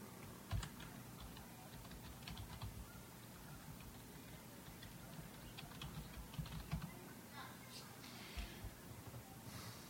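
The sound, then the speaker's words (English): Fingers type on a computer keyboard in a quiet, steady stream of many soft key clicks, with occasional louder taps and no voices. “Hang on, let me type that in.”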